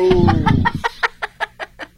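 Rooster-like chicken sounds begin with a dense, harsh squawk and settle into a run of about seven short, evenly spaced clucks.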